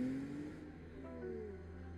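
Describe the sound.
Engine of a low sports car, the Spider, revving as it races away, a faint rumbling drone with a brief rising whine at the start that settles into a steady hum.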